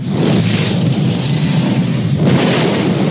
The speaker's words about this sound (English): That was a little bit of the trailer for The Matrix Reloaded from 2003, directed by the Wachowskis.